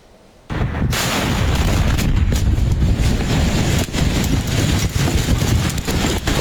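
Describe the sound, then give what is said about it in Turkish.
Fireworks go off during a fireworks disaster in Bolivia. A dense, loud barrage of booms and crackling starts abruptly and carries on without a break. “Patlama sesleri ard arda yükseldi. Panik her geçen saniye büyüdü.”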